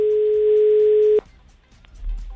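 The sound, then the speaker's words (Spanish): Telephone ringing tone while placing a call: one long, steady mid-pitched tone that holds for just over a second, then cuts off abruptly into faint low noise. “estamos llamando, Loli.”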